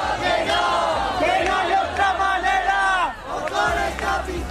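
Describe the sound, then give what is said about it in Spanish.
Protesters at a protest camp in Spain chant slogans together, loud rhythmic crowd phrases that rise and fall, with a brief dip in volume before the chanting resumes. “Las acampadas se mantienen activas y así es como se escuchaba el ambiente durante las últimas horas.”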